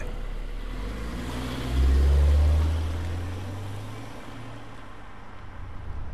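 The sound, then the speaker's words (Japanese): A Levorg car cruises along the Tohoku Expressway toward Tochigi, producing a steady low engine and road rumble that swells briefly and then eases back to an even drone, with no voices. “さあ今東北道を栃木に向かって走っているんですけれどもこのレボーグデザインもスポーツカーのような感じでとてもかっこいいんですよね”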